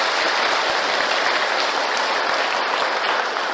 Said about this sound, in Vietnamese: chúng ta cho một tràng pháo tay cho bạn Kỳ